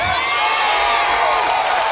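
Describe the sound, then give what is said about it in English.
An audience at a church service stands up shouting and cheering, a loud, dense mass of voices that holds steady through the whole brief moment. “for those of you who wonder why these people are standing up shouting”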